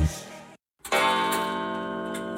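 A clock ticks, joined by a sustained ringing tone with many overtones after a brief silence. The ringing fades slowly.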